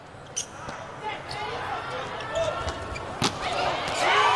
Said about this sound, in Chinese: 现在意大利换人是保证一传的稳定性，18-18。迪亚娜发球，